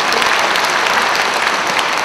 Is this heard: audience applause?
yes